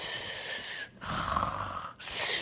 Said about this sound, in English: when a person snores, they also go,